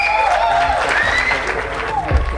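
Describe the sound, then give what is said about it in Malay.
An audience applauds a performer at a singing event with continuous clapping, and voices are heard over it. “Terima kasih, tepuk tangan dulu Mbah Noy.”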